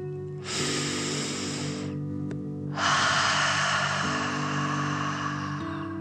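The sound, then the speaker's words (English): A deep breath drawn in for about a second and a half, a brief pause, then a longer, forceful breath pushed out through the mouth for about three seconds, loud and breathy. “and then out through your mouth, pretending you are breathing fire. Ready? Okay. Deep breath in and out.”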